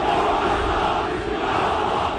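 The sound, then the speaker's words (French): Several hundred Turkish football fans chant and shout to greet a star player's arrival at Istanbul Atatürk airport, forming a loud, dense, unbroken crowd roar. “Ils étaient donc plusieurs centaines à chanter à la gloire de Mohamed Salah quand le pharaon a fait son apparition à l'aéroport Atatürk d'Istanbul”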